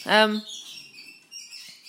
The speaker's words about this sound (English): Sorry about the horrible noise that cockatiel's making. I hate it when he does that.